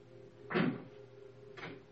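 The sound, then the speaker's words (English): A door is shut with two dull knocks about a second apart, the first louder, over a low steady hum. “Shut that door.”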